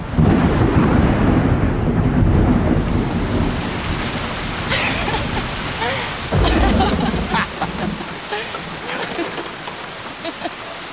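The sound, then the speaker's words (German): Heavy rain pours down during a thunderstorm at a beach, a dense, loud hiss with deep rolling thunder rumbling underneath, easing slightly toward the end. “Einmal überrascht ein Gewitter die beiden am Strand.”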